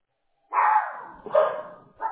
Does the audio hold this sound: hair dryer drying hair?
no